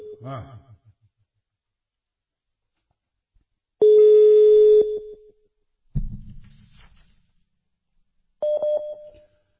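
A telephone call is dialed, giving a few electronic tones separated by silence: a short chirp, a sustained steady beep, a lower buzzy burst, then a shorter, higher tone.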